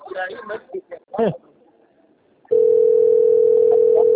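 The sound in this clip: A steady, single-pitched telephone tone for an incoming call begins abruptly after a stretch of talking and holds loud and unbroken to the end.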